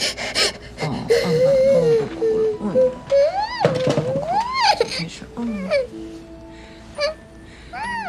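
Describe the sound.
A young child cries in loud, wavering wails and sobbing gasps, the pitch swooping up and down, while an adult woman's voice soothes and hushes over the crying.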